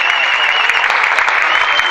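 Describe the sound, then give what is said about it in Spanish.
Concert audience clapping for a guitarist at a live show, a short, dense and even burst of applause with no break. “Un aplauso para Johnny Martínez. Guitarrista de Cortes Eléctricos.”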